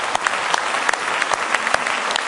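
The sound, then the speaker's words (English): A church audience claps hands in praise during a morning service: dense, loud, continuous applause with sharp individual claps popping out, no talk. “Let's give Him a good hand clap of praise this morning.”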